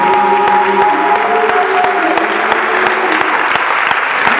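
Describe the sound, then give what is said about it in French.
A church audience applauds and cheers while praising the Holy Spirit during a worship service. The clapping is dense and steady throughout, with sustained raised voices mixed into it. “Est-ce que tu peux acclamer le Saint-Esprit”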